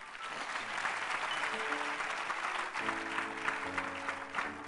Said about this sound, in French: Vous pouvez vous asseoir, on peut acclamer pour eux.